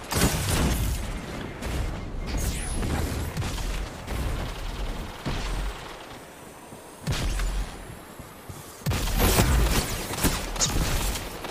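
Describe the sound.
Shotgun blasts from players in a Destiny 2 Crucible player-versus-player match: many booming bursts over dense, continuous game noise, with louder clusters near the start and in the last few seconds.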